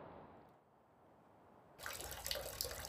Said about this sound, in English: It's 2:44 and wet here at KDIC 690 AM Radio, as the leak has become unmanageable.